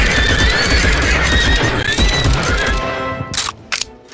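A horse neighs as cavalry appears in a video game: a loud, wavering whinny over busy clip-clopping hoofbeats, followed by two sharp bursts near the end.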